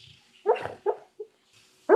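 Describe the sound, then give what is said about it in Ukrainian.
A dreaming dog gives soft, muffled woofs and whimpers, four short bursts separated by quiet pauses. “Це звук собаки, який бачить сни.”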